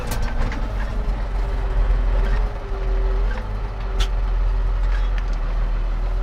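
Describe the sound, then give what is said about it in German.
A farm vehicle's engine drones loudly and steadily as it drives to a field to collect threshed maize from a combine harvester. The deep rumble runs continuously with no pause and no voices. “Wir fahren jetzt zum Feld, zu Erik, zum Drescher. Und dann holen wir den gedroschenen Mais vom Feld einmal ab.”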